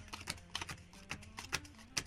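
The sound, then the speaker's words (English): Playing cards dealt face down one by one onto a table, giving a series of light, crisp taps and slaps at an uneven pace, quiet throughout with no talking. “So I'm dealing cards from the top, face down. Onto the table.”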